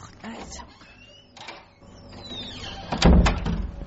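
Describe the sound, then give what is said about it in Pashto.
Knocking on a door: a few sharp raps, with scattered knocks early on and a louder cluster near the end, heard amid people talking. “هر چه می چه دروازه تک تک ده؟”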